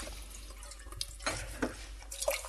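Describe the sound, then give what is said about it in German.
Water splashing and dripping as a cooking pot is rinsed out, with a few irregular sloshing bursts over a low, fairly faint background. “So, den Topf eben ausspülen”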